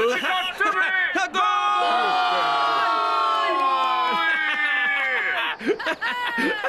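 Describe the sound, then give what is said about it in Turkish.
A football stadium crowd roars after a goal, with a loud, sustained mass of cheering and shouting voices that fills the whole clip and dips briefly near the start and end. “Golün sesinden duyamadım da.”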